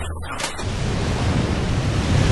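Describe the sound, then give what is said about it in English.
Waves crash around a tiny island of jagged rock at night: a steady, loud roar of surf and rushing water with a low rumble, swelling slightly toward the end. “Nighttime. Waves crash around a tiny island of jagged rock.”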